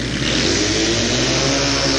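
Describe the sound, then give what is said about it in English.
A 750 Triumph Twin motorcycle racing on a flat track roars loudly and steadily, a continuous engine drone at full throttle with no pauses and no voices. “The Triumph out in front. Frank Bernero out of Hera, riding a 750 Triumph Twin, originally ridden in competition by the great Mike Kidd.”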